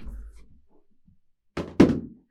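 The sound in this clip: A laptop thrown hard onto the floor lands with two heavy thuds close together after a near-silent pause.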